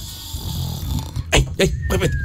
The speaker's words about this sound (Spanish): cuando llega la noche y todo queda en calma, un ronquido aparece y se apodera del alma.